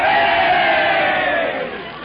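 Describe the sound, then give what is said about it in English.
A crowd cheers at a football game with a dense, steady roar of many voices that softens toward the end. “The crowd is getting restless.”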